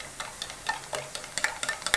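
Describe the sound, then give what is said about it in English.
Stirring of sloppy joe mix with ground beef in a skillet: many quick scraping and clicking strokes over a soft, steady sizzle, with no talking. “back here at the skillet and stirring.”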